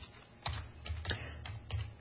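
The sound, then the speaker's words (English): Keyboard typing, a few soft irregular key clicks and taps, quiet and with no speech. “I wanted to read something to you. Let me just type something in.”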